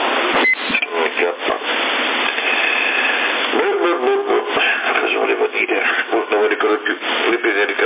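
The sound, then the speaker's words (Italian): A dog barks over a CB radio channel. Several thin, band-limited barks are mixed with talk and radio noise, repeating throughout. “riprendo io un attimo che chiamo il cane, che questo di solito quando lo lasciamo andare se ne va fuori alla campagna”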